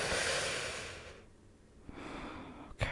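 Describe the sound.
Someone takes a deep breath. Two airy, breathy phases are separated by a short lull, and a small click comes at the end.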